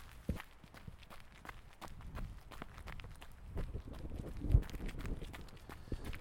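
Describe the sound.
Running footsteps of people jogging together during a warm-up run: many quick, evenly spaced thuds and scuffs in a steady rhythm, fairly faint throughout, with no clear talk.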